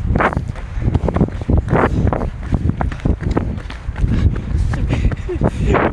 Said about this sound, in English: Oh yes, I love the wind. Hear that wind again.